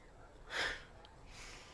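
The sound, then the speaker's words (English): A faint breath pushed out through the mouth during a breath-control exercise: one short, airy whoosh, then a softer, longer breath trailing off. “You've got to blow out that air slowly. One more time. All right. Deep breath.”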